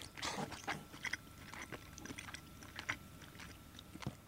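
Chewing of tender, fatty food eaten plain without any sauce: quiet, soft bites and wet mouth sounds in an irregular rhythm, with no talk.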